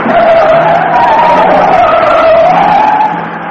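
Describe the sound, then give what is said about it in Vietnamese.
Truck tires screech as the vehicle swerves and its outer wheel climbs a curb: a loud, sustained, high tonal squeal that wavers slightly in pitch and lasts throughout, easing off near the end. “chiếc cam nhông lết bánh rít lên, bánh xe ngoài leo lên lề một chiếc cầu trở lại xuống đường”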